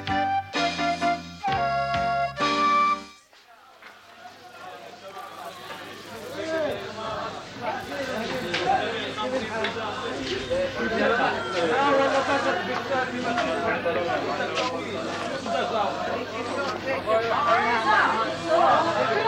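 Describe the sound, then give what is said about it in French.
A busy market in Jerusalem fills the air with crowd chatter, indistinct voices and general bustle, all at a steady, lively level. The market noise follows a short burst of music at the start. “je vous emmène dans le marché de Jérusalem”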